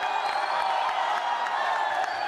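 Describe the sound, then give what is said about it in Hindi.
Audience applause and cheering after a glittery disco-style group singing performance on a televised talent show stage: loud, sustained clapping with crowd noise that stays even throughout. “सोना कीर्ति और शाजनीन के लिए जोरदार ताली हो जाए”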